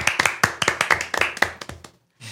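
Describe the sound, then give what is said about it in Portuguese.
Several people clap by hand in quick, uneven bursts. The claps come sharp and close together, then thin out and stop shortly before the end. “Palmas pra Viviane.”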